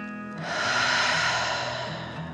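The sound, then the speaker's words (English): A deep, calming breath in and out: one long, soft, airy rush that swells gently and then eases away, heard alone without talk. “Then one more deep dragon breath in and out.”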